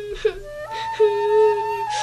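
A child crying, heard as a whimpering, wavering wail that starts with short sobs and then lifts into a longer, higher-pitched cry.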